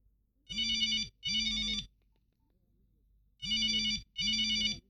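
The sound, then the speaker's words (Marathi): A telephone rings in two double rings, four buzzy electronic trill bursts grouped in pairs with a long pause between the pairs. “आणि phone वाजला.”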